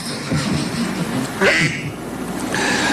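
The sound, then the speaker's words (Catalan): A duck-quack notification tone from a mobile phone sounds in a couple of short, nasal quacks over a steady background noise. “És el so d'un ànec. Uns segons després treu el mòbil de la butxaca i ara sí, el posa en silenci.”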